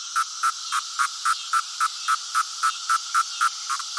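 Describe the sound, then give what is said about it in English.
A chorus of male cicadas singing in a summer yard: steady, evenly spaced buzzing pulses, about four a second, over a continuous high, hissing drone, loud and without any voices. “These males are collectively referred to as a chorus of cicadas.”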